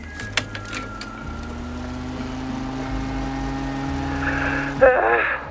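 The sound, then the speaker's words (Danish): A floppy disk is pushed into a machine to be played, with a few sharp clicks at the start, then a steady mechanical hum and a brief louder whirring burst near the end. “Jeg sætter en diskette ind i en maskine nu, og så kan vi høre, hvad der bliver sagt på den.”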